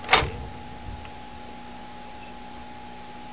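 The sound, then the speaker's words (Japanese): A vehicle door shuts with a single short, heavy thud at the very start, followed by near quiet and a faint steady hum. “ドア開けますよ。もういいですか、閉めましょう。”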